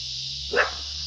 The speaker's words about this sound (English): that's the hellhounds barking because there's a chick with a baby in a stroller and looks like one in her belly walking.